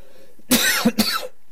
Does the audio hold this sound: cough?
yes